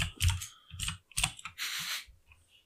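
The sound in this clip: Someone types a note on a computer keyboard, producing quiet bursts of quick clicking keystrokes separated by short pauses.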